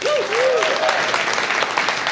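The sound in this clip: Applause and cheering from a church audience: a dense, steady clatter of clapping fills the whole clip, with a few raised voices lifting over it at the start.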